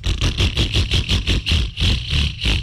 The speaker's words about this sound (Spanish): Si su moto suena así,